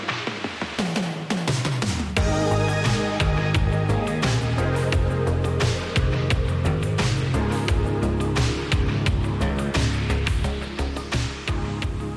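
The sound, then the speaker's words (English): A vaporwave track plays, built from a cheesy 1980s-style loop warped with plugins and processing. A dense, steady groove carries bass and sharp percussion hits repeating throughout, with no voices. “First, we'll create our own cheesy 1980s style loop, and then we'll warp it with various plugins and processing until we reach something that sounds like this.”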